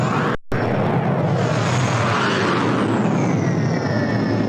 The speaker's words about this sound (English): I need to get better airport sounds because someone was messaging me saying, why do I keep playing the rocket sound? Like a bomb was going, like, you know, like a missile.